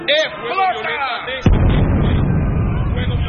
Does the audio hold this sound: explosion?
yes